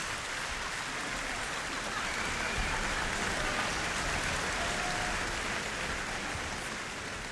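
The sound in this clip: Standing ovation from the audience at the Portland Symphony Orchestra's opening concert of its 102nd season. Thick, continuous clapping rolls on at an even, moderate level throughout.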